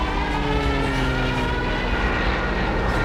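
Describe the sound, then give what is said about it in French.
An airplane engine drones in a loud, unbroken roar with a steady whine as the aircraft is caught in a downdraft over the area of Laguna del Diamante, a lake with flat ground around it. “L'avion est pris par un courant descendant.”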